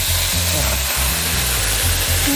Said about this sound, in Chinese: 炒这个花生芽呢，要让它快速的断生，我们可以加一点点水下去。